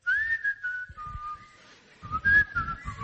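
A person whistles a wavering, high tune in two phrases separated by a quieter stretch, with soft low thumps beneath it.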